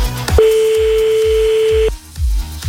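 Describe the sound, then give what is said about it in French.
A single steady telephone ringing tone from an outgoing call holds for about a second and a half, then cuts off, with rhythmic background music playing underneath. “On appelle, bah, dès que t'entends plus la petite musique en dessous de toi, tu dis allô”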